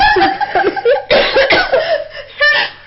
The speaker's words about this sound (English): over here coughing up a lot